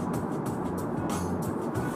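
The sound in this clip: Steady low road rumble and engine drone inside a moving car, faint and continuous, with no talk.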